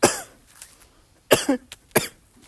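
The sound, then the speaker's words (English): Coughing from a person with a persistent tickly cough and no sore throat, a few sharp, harsh bursts separated by short pauses. “My throat doesn't actually hurt, it's just this flipping coughing.”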